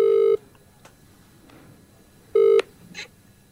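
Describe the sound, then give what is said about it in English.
Telephone keypad tones sound as a number is dialled: two short, steady beeps about two seconds apart, separated by faint background noise and a few soft clicks. “All right, let's give him a ring.”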